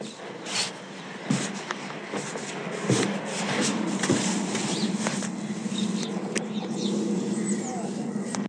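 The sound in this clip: Footsteps climbing stairs after a walk through a muddy field: soft, irregular thuds and shuffles, faint against a steady background hiss.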